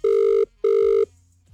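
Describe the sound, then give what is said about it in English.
A telephone ringing tone on an outgoing call: two steady, buzzing mid-pitched rings of equal length, split by a short gap, then quiet. “All right, going to dial now. I really hope they answer this.”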